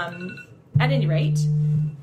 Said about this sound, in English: that's my phone going off. It's okay.